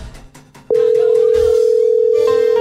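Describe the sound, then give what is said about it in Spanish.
Telephone dial tone heard while placing a call: a brief noisy start gives way to a loud, steady, unbroken tone at one pitch that holds to the end. “voy a llamar a Jennifer”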